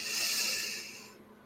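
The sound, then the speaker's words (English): A soft, deep breath during a meditation sounds as one airy hiss that is quiet and alone and fades out toward the end. “Now take another deep breath.”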